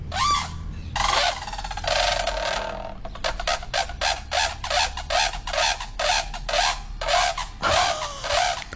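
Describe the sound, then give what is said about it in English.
A brolga gives harsh, brassy trumpeting calls, first a few longer drawn-out blasts, then many short, rapid calls in a steady pulsing run, each rich and raspy. “Here's a trumpeting brolga for you, Christine.”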